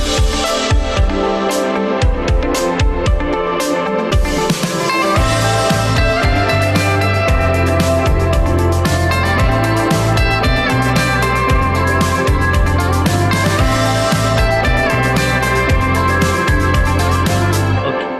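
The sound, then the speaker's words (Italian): A music backing track played solo in Reaper, continuous and loud with no voices. A lighter, sparser opening gives way after about five seconds to a fuller groove with a heavy bass line. “e la sentiamo in solo, quindi io adesso sento solo la base”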